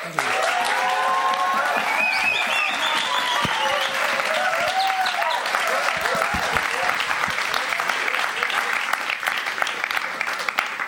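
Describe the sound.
Warm audience applause greets a speaker as he is welcomed to the stage. Thick, continuous clapping stays loud for the full length, with a few tonal calls or voices rising above it.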